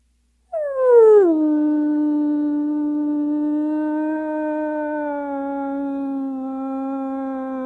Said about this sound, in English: And at times, a member might get separated from the pack, and you hear a similar vocalization, a little more, it's hard to describe with words, but you might hear something like,